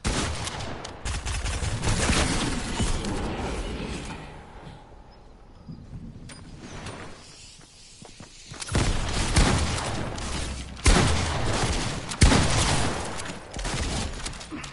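Rapid gunfire in a shooting video game, with dense volleys of crackling shots that stay loud, thin out briefly in the middle, then return in heavy sustained bursts toward the end.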